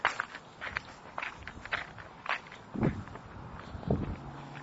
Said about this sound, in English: So we're just walking here. Good. Passing the second house.